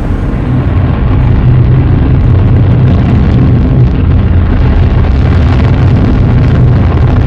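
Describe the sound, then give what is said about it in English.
Spaceship engines fire for launch as a loud, dense roaring rumble, heavy in the low end and held steady from start to finish without voices. “Starting the final launch sequence.”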